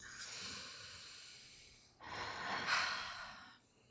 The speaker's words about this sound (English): okay, let's breathe that in.